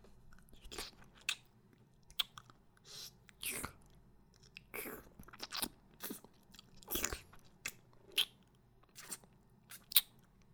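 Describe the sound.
Faint chewing and biting on a steamed meat bun, with many short, soft mouth bursts in an irregular rhythm, each separated by quiet gaps.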